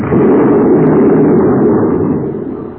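A spaceship explodes after glowing red hot and melting: one sustained, loud roaring blast that rumbles steadily and fades away toward the end.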